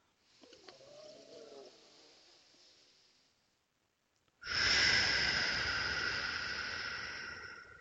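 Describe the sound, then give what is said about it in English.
Paced breathing: a soft inhale through the nose, then a short pause, then a loud, steady, airy exhale through the mouth that lasts several seconds and fades slightly at the end. “I would breathe in through my nose for 5 seconds and out through my mouth for 5 seconds. So it would look something like this or sound something like this.”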